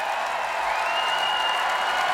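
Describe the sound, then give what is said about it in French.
A festival crowd of about 40,000 cheers and applauds at a rock concert, producing a continuous, even roar of voices and clapping that holds steady for the whole moment. “Le public acclame. Ah, vous entendez, c'est ça, 40 000 personnes.”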